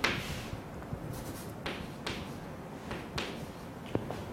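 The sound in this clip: Writing on a board, with faint scratchy strokes broken by several sharp taps as the term is written out. No one speaks.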